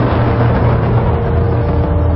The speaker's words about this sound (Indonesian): saat itu sebuah bis melintas dan berhenti.